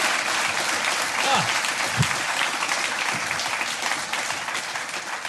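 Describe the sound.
A studio audience applauds to welcome a guest onto a television show. The clapping is even and continuous, with a host's voice talking over it.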